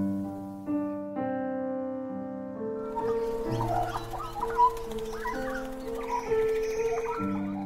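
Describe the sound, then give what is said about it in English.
Short chirping, warbling calls of the Australian Bird of the Year, a small bird with a southern population of about 800, come in after a few seconds over steady sustained tones, moderately loud and repeated many times. “That's the sound of the Australian Bird of the Year, just declared by The Guardian and BirdLife Australia.”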